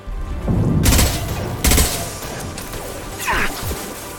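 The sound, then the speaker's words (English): Gunfire from many bullets being shot arrives in a few separate loud, crackling volleys, each a sharp burst of blasts over a low rumble, with quieter gaps between them. “Oh no, there's even more more. Oh, they're shooting a lot of bullets at us.”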